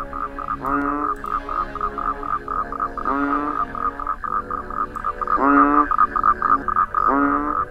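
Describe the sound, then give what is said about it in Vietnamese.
Toads and frogs croaking at night: repeated bursts of raspy, rattling calls every couple of seconds over a steady high-pitched chorus that runs throughout. “Ở ngoài kia tiếng cóc nhái cứ rên rỉ đến buốt lòng.”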